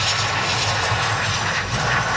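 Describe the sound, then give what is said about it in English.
A passenger airplane roars steadily and loudly as it arrives in Victoria, British Columbia, its engine noise an unbroken wash with no talk. “a plane carrying four Canadians from that cruise ship arrived in British Columbia last night.”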